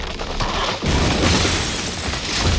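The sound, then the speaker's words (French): A giant chandelier collapses and shatters in a concert hall after a concert, a loud, dense, continuous crashing roar that swells louder after a moment and stays heavy to the end. “un lustre gigantesque s'est effondré et s'est brisé.”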